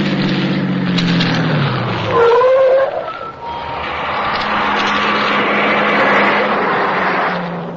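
A car driving on past after a stop, a steady broad engine roar that holds through, with low droning tones sliding downward early on and a brief whine near the middle.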